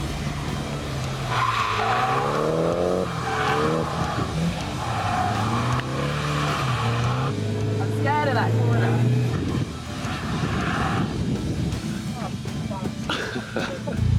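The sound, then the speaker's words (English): Tires skid and squeal as a Nissan Silvia S15 spins, its engine roaring loudly and wavering in pitch throughout, with repeated bursts of screeching rubber. “I, thankfully, have some time to just purely get sat back into the S15. Alrighty, ready? Spin. Let's go.”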